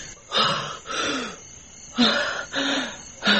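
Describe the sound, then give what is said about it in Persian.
Gasping breaths of a person starting to breathe again after artificial respiration: several ragged, rasping intakes in quick succession, moderately loud. “اون حرکت کرد، نفس میکشه.”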